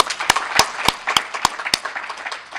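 Audience applause at an evening community event on diversity: steady crowd clapping with six sharp, evenly spaced loud claps standing out in the first two seconds, then a denser, softer patter.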